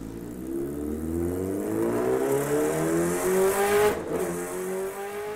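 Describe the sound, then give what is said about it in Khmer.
A motorbike speeds quickly away, its engine drone climbing steadily in pitch as it accelerates, with a brief break near the end like a gear change before it rises again. “និយាយចប់ហេងក៏បានជិះម៉ូតូយ៉ាងលឿនចេញបាត់ទៅ”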